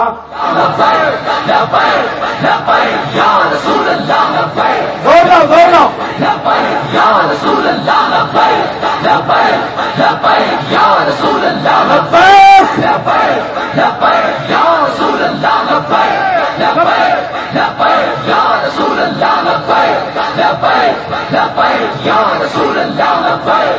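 A large crowd chants slogans in unison at full force during a religious rally held in the rain. Loud, rhythmic shouted phrases repeat continuously, with brief swells in intensity along the way.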